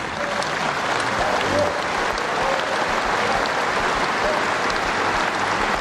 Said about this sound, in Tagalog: Pinalakpakan sa unang sona ng Pangulo ang pangakong tatagpasin niya ang korupsyon sa gobyerno.